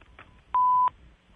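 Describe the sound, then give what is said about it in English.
A single electronic beep sounds as a clean, steady mid-pitched tone lasting about a third of a second, loud against a near-silent background. “Oh, a beep.”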